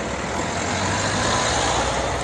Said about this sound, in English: Oh, vehicles in both directions.